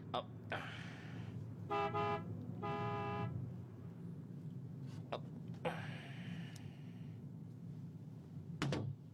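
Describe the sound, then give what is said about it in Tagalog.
Two short car horn toots from a driver honking at someone walking along the roadside, bright and brassy above a steady low road and engine rumble. “Businahan ko siya.”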